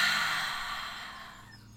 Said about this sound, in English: Really slow, taking in all the wonderful, beautiful air, and breathe it out.